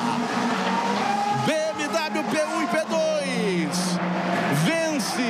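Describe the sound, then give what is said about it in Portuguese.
Loud race car engine, a BMW taking victory in an endurance race at Spa-Francorchamps, howling at high revs. Its pitch climbs and drops repeatedly through quick gear changes, continuous and strong for the whole stretch. “Aí vem eles, Robin Fries, trazendo a BMW para a primeira vitória.”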